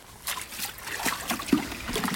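Water sloshes and splashes as people wade out of a spring stream near Renkum, with a few soft, irregular splashes and trickles at a fairly faint level.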